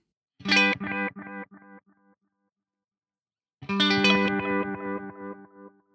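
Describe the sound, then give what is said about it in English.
A bright electronic tone runs through a delay effect set to longer gaps and more repeats, with vibrato added: one sharp note fades through several echoes, then a second, longer note rings out and slowly decays. “I'm going to turn up the delay time again. So more time in between. And more repeats. And now we're going to add in some vibrato.”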